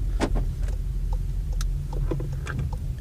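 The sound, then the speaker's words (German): A car reversing across a parking lot gives off a low, steady engine rumble, with a few faint clicks and ticks over the hum. “Jetzt muss ich hier noch rückwärts den halben Parkplatz langfahren.”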